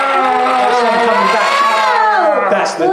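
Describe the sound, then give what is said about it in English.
A reversed sound effect: a dense, loud wash of voice-like tones and crowd-like cheering that holds steady for about three seconds, with a gliding pitch drop near the end. “sound effect reverse. You wouldn't really notice, but it is.”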